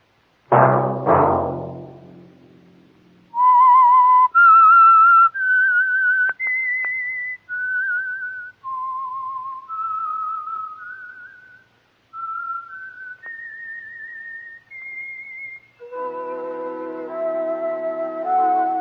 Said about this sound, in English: That whistle be your signal for the Signal Oil program, The Whistler, each Sunday night at the same time.